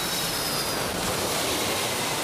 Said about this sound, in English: Aviation Quest CC101, cleared for takeoff, 27 left. V1, rotate.